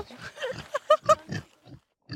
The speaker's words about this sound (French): Ça pourrait être un troupeau de cochons, mais c'est vrai, c'est un troupeau de cochons itinérant.